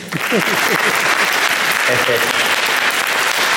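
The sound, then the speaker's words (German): A church audience claps for a choir that has just sung. The applause is loud, dense and continuous, and a voice speaks over it at the start. “Now I want you to put your hands together, clap for the choir that is just singing here.”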